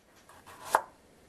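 A kitchen knife chops food on a cutting board with one sharp, distinct strike, preceded by a few faint, softer knife sounds. The cook is working awkwardly at a counter that is too high.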